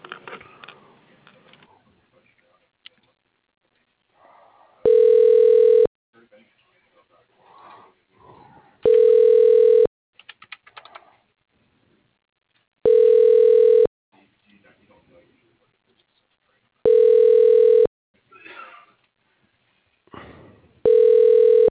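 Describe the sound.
Telephone ringback tones sound as a call is transferred to voicemail: five steady rings, each about a second long, repeat at even intervals with faint scattered sounds in the gaps between them.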